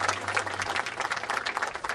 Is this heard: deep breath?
no